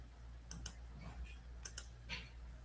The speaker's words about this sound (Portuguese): Gente, esse negócio hoje tá. Tô clicando, não tá abrindo.